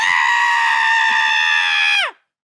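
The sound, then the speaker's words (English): A man voices an imitation of a blood-curdling scream, one loud, sustained, high-pitched cry lasting about two seconds that drops sharply in pitch at the end and breaks off into silence. “There's a man that screams like a blood-curdling scream.”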